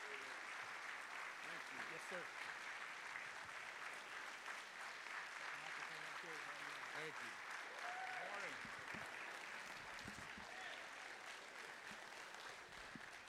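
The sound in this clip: A church audience applauds a guest speaker at a morning service, giving steady, dense clapping that continues for the whole clip, with voices mixed into the crowd.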